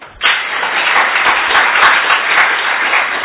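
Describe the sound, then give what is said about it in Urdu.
An audience claps for themselves during a focus and meditation session: a sudden burst of dense, even applause that starts after a brief pause and holds at a steady, loud level to the end. “بہت زبردست focus ہے آپ کا اپنے لیے تالیاں”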